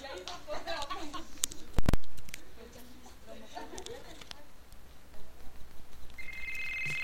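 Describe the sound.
A telephone rings with an incoming call, an electronic ring tone pulsing near the end after a stretch of murmuring voices and a sharp knock.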